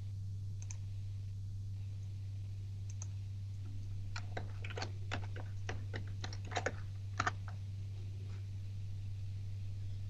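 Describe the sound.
A password is typed on a computer keyboard, producing many quiet, irregular key clicks in short bursts over a steady low hum.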